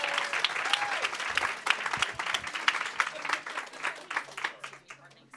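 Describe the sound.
Audience applause greets a woman as she is introduced: dense, steady clapping from a crowd that carries on without pause for the whole stretch.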